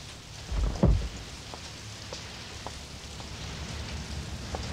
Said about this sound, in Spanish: Está lloviendo.